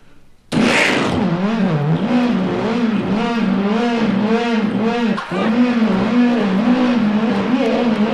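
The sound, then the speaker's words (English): A 900-horsepower car engine in neutral fires up abruptly, then revs loudly again and again, its pitch swinging up and down in a steady series of throttle blips, with a brief dip partway through. “And I put it in neutral and smiled at the guy. 900 horsepower. Oh, boy. And I started it up.”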